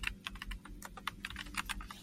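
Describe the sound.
Someone types quickly on a computer keyboard, producing many soft, irregular keystroke clicks in a steady patter with no voices.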